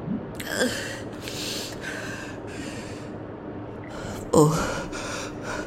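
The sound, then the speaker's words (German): A person gasps and breathes heavily on waking from cryogel, the gel just cleared from their lungs: a few sharp, breathy gasps and rasping breaths, with a louder, voiced gasp near the end and no talk. “Atmen Sie ruhig. Einatmen, ausatmen.”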